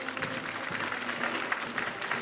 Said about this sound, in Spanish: el rey ha pasado revista a las tropas para después unirse a sus compañeros y besar el primero la bandera en medio de los aplausos del público asistente.